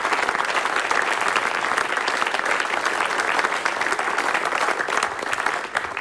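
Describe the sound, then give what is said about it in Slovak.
An audience at the ESPRIT music awards ceremony applauds music creators. A dense, even patter of many hands holds steady for the whole stretch and eases slightly just before the end. “Takže všetkým, ktorí hudbu tvoria, tak teraz tlieskame, pretože si to naozaj zaslúžia.”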